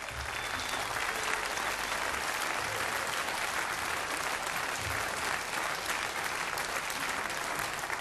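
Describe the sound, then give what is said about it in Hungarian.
An audience applauds a percussionist as he is introduced on stage. The clapping is dense and sustained at an even level for the full eight seconds. “Ray Slim következik. Az ütős ember! Nagy tapsot kérünk neki!”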